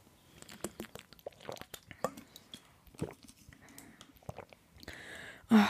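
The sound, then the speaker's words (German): A person taking a sip of a drink: scattered small wet mouth clicks and quiet swallowing sounds in an uneven rhythm, ending in a brief, louder burst. “Ich muss mal einen Schluck trinken. Ähm, wir alle natürlich.”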